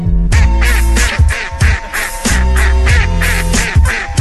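Duck quacking sounds used in an American-style rap music track: many short, nasal, quack-like bursts repeat in a tight rhythm over a loud, booming low bass line, punchy and forceful throughout.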